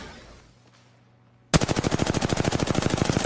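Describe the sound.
Rapid automatic gunfire in the Apex Legends video game bursts in loudly after a quiet lead-in, a fast stream of many shots in an even, clattering rhythm running to the end.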